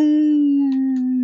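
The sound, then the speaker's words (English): A human voice imitates a wolf call with a single sustained, steady-pitched howl rich in harmonics that sags slightly and fades at the end, loud and alone. “I don't really know what that means, but it's supposed to be a wolf call.”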